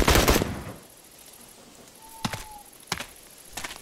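A firing squad's rifle volley: a loud, dense burst of overlapping shots at the start, then a quieter gap broken by a few sharper single cracks and clicks, with no voices.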